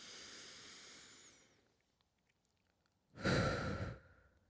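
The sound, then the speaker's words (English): A deep breath in and out: a soft, drawn-out inhale fades away, and after a quiet pause a louder, breathy exhale follows. Both are heard alone, without talk. “All right, let's take a deep breath. Okay, one more.”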